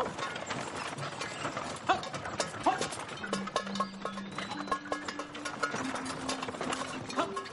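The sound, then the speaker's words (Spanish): Hooves clip-clop steadily as a knife-grinder's horse-drawn cart travels along a forest path, a rhythmic run of many hoof beats at moderate loudness. “El afilador conduce su carreta por un sendero en medio del bosque.”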